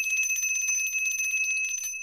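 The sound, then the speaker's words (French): A small bell rings rapidly and continuously, a bright, high metallic jingle repeating for about two seconds with no voices over it. “Maudite clochette.”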